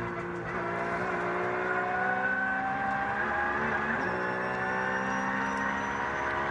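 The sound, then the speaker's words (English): Engine of a Black Falcon Porsche race car, recorded onboard during a race: a loud, sustained, buzzing drone with strong steady harmonics, briefly broken midway before carrying on at a similar pitch. “Staying on board with Giorgio Piani in the Black Falcon Porsche, who's giving us a little masterclass on how to drive this clear track frame at the moment.”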